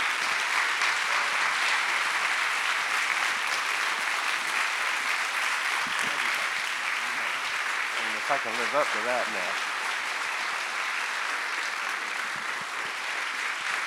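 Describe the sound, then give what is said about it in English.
A church audience on its feet gives a welcome-home standing ovation for its pastor and his wife: dense, sustained applause that stays loud throughout, with a voice briefly audible above it partway through. “So, RCOG, will you please stand and give a well deserved welcome home ovation to Pastor Wayne and Kim Merritt?”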